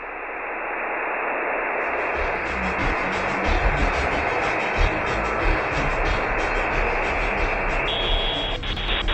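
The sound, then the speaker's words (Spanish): A radio that switched on by itself gives out loud, steady static hiss that fills the whole stretch without a break. “escuchamos un ruido. Nos damos la vuelta y el radio está sonando. Pero nadie lo prendió.”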